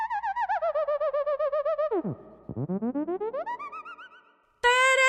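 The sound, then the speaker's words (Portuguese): Theremin played by moving the hands through its field, giving a warbling, vibrato-laden electronic tone that swoops sharply downward, then glides steadily back up, before a louder, brighter tone cuts in at the end. “Teremin! É deste planeta ou é importado de Marte?”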